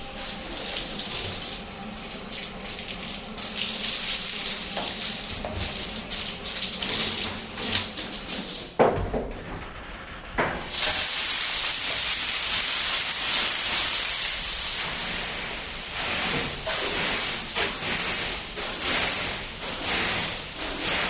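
Water pours steadily from a timed push-button shower in a changing cabin, a loud continuous hiss that dips briefly around the middle before resuming at full strength.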